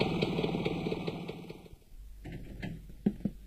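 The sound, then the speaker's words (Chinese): A motorcycle engine arriving downstairs below a building, a faint low rumble that holds steady through the latter part, with a few light knocks near the end. “正在他犹豫不决的时候，楼下响起了摩托车的声音。”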